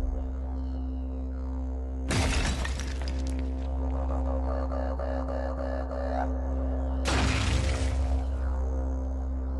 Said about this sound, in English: I threw it at the ballistics gel head and the results were shocking.